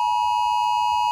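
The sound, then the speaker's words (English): A mobile phone sounds an Australian national emergency alert test tone, a single steady high-pitched electronic tone held loud and unbroken for about a second. “every mobile phone in Australia will blast a 10-second alarm. Now, we won't play all of it. We don't want to alarm you while you're driving. No. But it sounds a little like this.”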